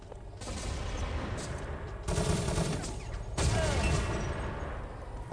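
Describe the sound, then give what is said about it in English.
HK-69 grenade launcher fire in a video game, set in a dense, continuous wash of gunfire noise, with two heavier bursts standing out partway through. “now you hear the HK-69 going off in the background”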